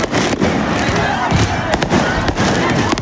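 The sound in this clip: Firework mortars are fired during street unrest with burning bins, sending sharp bangs and crackles through a dense, loud, noisy roar that continues throughout.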